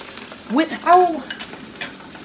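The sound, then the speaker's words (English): Tomato paste sautéing in oil, mashed and stirred with a wooden spoon: two squeaky, tonal scraping strokes over a faint, steady sizzle. “And now I'm just gonna mush it because I can feel the tomato paste with my wooden spoon. So I'm just mushing it in the oil. I'm sauteing it.”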